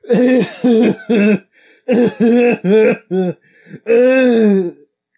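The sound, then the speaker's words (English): A voice imitates a small child coughing nonstop after being dunked underwater in a swimming lesson. Many loud, voiced, hacking bursts come in quick clusters, ending in one longer drawn-out cough. “And he pops back up, and he's just like,”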